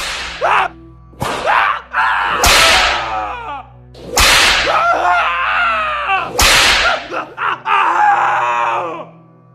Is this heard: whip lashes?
yes